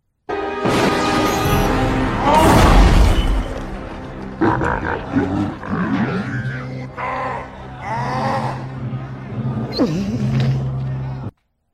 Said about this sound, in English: Episode 6! Oh! It's when the Rancor dies. When the Rancor... Yeah, listen. Oh. Gate goes down. The gate goes down.